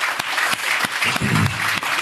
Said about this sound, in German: Einmal einen Applaus für den Schorsch.